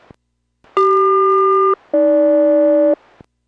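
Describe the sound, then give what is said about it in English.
Aircraft radio SELCAL selective-calling tones for a Boeing flight: two steady, loud one-second tone pairs separated by a brief gap, the second pair lower in pitch than the first. “55, Boeing Everett, loud and clear, cell call follows.”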